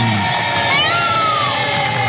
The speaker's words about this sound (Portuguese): É o pavão, o bicho de hoje. Palmas para todo mundo! É o pavão.